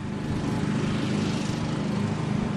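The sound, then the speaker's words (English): Steady engine drone from a lawn mower trimming grass on Centennial Field, a soccer field in St. Lawrence, runs continuously with a low humming core and broad hiss, holding an even loudness throughout. “Today in St. Lawrence, workers are trimming the grass on the Centennial Field and giving the benches a fresh coat of bright blue paint.”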